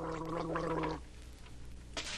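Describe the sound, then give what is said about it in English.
Gargling of a minty antiseptic mouthwash: a bubbling, voiced gurgle that lasts about a second, then stops, leaving a faint quiet stretch with a short soft rustle near the end. “But now there's Wham Wash, minty and antiseptic gargle that alleviates sock mouth first thing in the morning and all day.”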